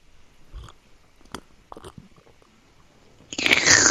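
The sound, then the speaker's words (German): Someone drinks a grape juice spritzer: a few soft, scattered gulping and swallowing clicks, then a louder, breathy rushing noise that swells at the end. No one speaks. “Ich muss mal kurz was trinken von meiner Traubensaftschorle.”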